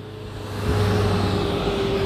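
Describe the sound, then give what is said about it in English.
A very big bus passes outside, a low engine rumble with a steady tonal hum that swells at about the first second and then holds as a loud, even drone. “a very big bus just passed by”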